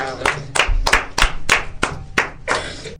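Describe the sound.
An audience claps for the children, about eight sharp, evenly spaced claps in unison at a steady rhythm, the last one a slightly longer burst.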